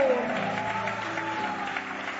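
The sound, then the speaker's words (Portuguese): A church audience clapping hands in praise during a Portuguese-language worship service: brisk, continuous clapping at a steady level, slightly muffled, lasting a couple of seconds. “Palmas que glorifica Ele, palmas que glorifica, palmas que louve ao nome do Senhor.”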